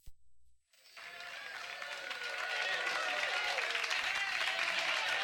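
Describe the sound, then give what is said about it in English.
Studio clapping opens a rock track: after a short sound and a pause, many hands start clapping, and the applause builds into a dense, steady wash that grows louder toward the end. “Is that the people in the studio clapping?”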